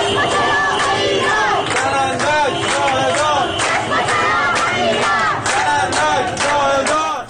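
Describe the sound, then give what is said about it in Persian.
Protesters chanting at a protest in Ahvaz: loud, dense massed voices shouting together in rhythmic, repeated bursts that carry on without a break. “این صدای اعتراض معترضان در اهواز است.”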